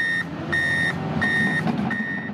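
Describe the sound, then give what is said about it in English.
Four evenly spaced, steady high beeps from a truck reversing at roadwork on Corkscrew Road in Estero, heard over a constant rumbling engine and traffic noise. “If you drive east in Estero, you can't miss the roadwork happening on Corkscrew Road.”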